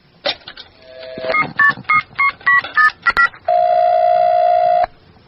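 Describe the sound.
A telephone number is dialed as a quick run of short touch-tone beeps, followed by one long, steady tone that then cuts off.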